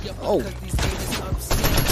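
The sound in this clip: Gunfire in a video game sounds as a few sharp bursts over a dense, noisy game backdrop, with no clear talk.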